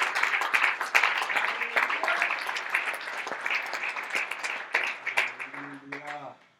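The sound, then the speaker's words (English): A church audience claps hands during a sermon on prayer, a dense, steady patter of many hands mixed with voices calling out. The clapping thins and fades near the end. “Oh, somebody clap their hands before the Lord.”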